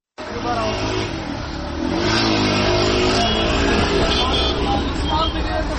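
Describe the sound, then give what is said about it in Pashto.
Busy city street traffic in Afghanistan on an Eid day, with cars coming and going. The roar is a dense, continuous rush of engines and tyres that swells louder after about two seconds and stays steady. “په خارونو کې د موټرو د تک را تک شور”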